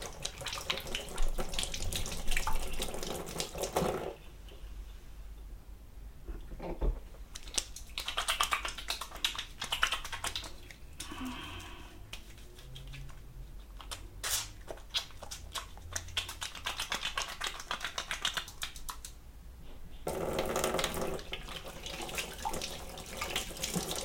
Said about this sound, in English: Let's wash my hands first.